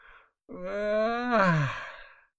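A drawn-out human yawn, performed for a flower waking at sunrise in a children's story. One long voiced breath of about two seconds, moaning, with the pitch sliding downward at the end, after a brief breath.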